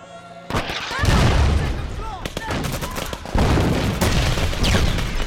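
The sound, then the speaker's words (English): Gunfire and explosions ring out in a war film battle scene: an RPG fired at a tank, soldiers' guns, tanks and bombs. Bursts of sharp shots and heavy booms come in a dense, uneven barrage, with voices in the mix. “they shoot an RPG at a tank, which causes the building to just be lit up by soldiers' guns and tanks and eventually the jets that drop the bombs.”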